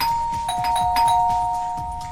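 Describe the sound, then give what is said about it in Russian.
Insistent ringing of a front doorbell, steady bright electronic tones held almost without a break and sounding over a low, rhythmic background. “Настойчивый звонок в дверь прервал сочинительство Олега.”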